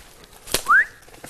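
A person gives one short whistle that rises in pitch, a signal that mushrooms have been found, preceded by a brief soft click and otherwise alone against quiet.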